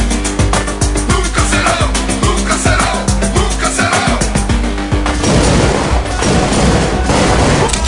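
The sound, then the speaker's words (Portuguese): Rifle fire in a video game: loud shots crack out in rapid succession, many in a row, then give way to a denser, noisier stretch of continued firing. “acabei atirando com meu fuzil, fica fácil, né?”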